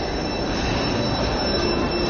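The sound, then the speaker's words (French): Train wheels squealing in Paris's Gare du Nord station, a steady, loud, high-pitched metallic screech over a constant rolling rumble, heard with no talk. “Et donc là, vous reprenez le train maintenant?”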